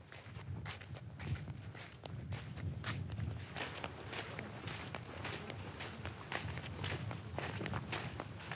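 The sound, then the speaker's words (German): Footsteps of camels walking back to the tent in Mauritania after a search for fodder: many steady, shuffling footfalls over a continuous low rumble, with no voices. “Nach einer Wanderung auf der Suche nach Futter ist es jetzt Zeit, mit den Kamelen zum Zelt zurückzukehren.”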